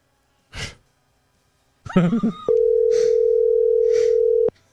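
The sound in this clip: The ringing tone of an outgoing telephone call is heard as one steady, level, mid-pitched tone lasting about two seconds. Before and over it come audible breaths and sighs, plus a brief vocal sound.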